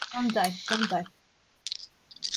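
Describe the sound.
Dice rolled for a tabletop roleplaying game make a few quick rattling clicks after a stretch of talking.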